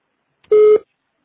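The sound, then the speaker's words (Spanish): A single loud voicemail recording tone, a steady mid-pitched beep lasting about a third of a second, sounds alone on a telephone line before a message is left. “Por favor, grabe su mensaje después del tono.”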